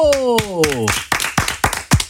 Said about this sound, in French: Celles et ceux que vous entendez vous applaudir, ce sont les stagiaires de cette semaine qui sont à la radio ici Occitanie.